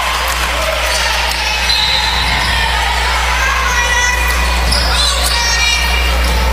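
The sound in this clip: A basketball is dribbled during a high school game between South Rowan and Pisgah. Faint bounces sit under steady crowd noise, and a man talks over them.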